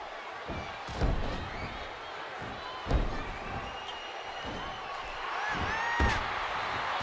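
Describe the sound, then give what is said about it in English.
A wrestler's power slam onto the ring mat during a pro wrestling match lands as a few heavy, booming thuds. They rise over a steady, loud crowd roar that continues throughout. “Sends DDP off and hits him with a huge power slam.”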